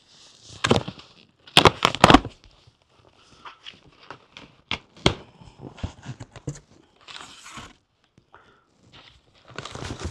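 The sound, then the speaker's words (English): A knife cuts through a freshly opened package. It makes a series of sharp, scratchy crackles and snaps of uneven loudness, with quieter gaps between them and a renewed burst at the end. “Oh, Freedom Knife is just cutting beautifully now.”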